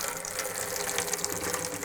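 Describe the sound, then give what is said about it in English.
A steady, hissing trickle of liquid serves as a sound effect of the Prime Minister wetting themselves, continuous and fairly faint across its short length. “You appear to have wet yourself, Prime Minister. Oh dear. So I have.”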